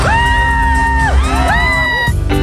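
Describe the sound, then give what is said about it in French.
A woman screams in a nightclub with two loud, high, sustained shrieks, the second a little shorter. A low crowd-like din runs beneath them. “elle est en discothèque, elle crie.”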